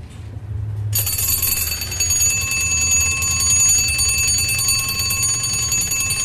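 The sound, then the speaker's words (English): An early alarm mechanism on an old clock, set by a disc at the front of the dial behind the hands, rings after about a second of quiet: a loud, steady, bright bell ringing that continues without a break to the end. “This is an early alarm mechanism. And it can be set by a disc at the front of the dial behind the hands. And this is the sort of tone that you get from that.”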